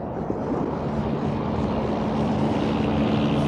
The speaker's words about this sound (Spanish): No, el helicóptero daba la vuelta. Volvía hacia mí.